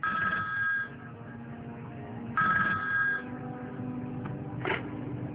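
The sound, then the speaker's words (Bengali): A telephone rings in the middle of the night, two trilling electronic ring bursts separated by a pause, over a low, steady background. “হঠাৎ তার phone বেজে উঠল।”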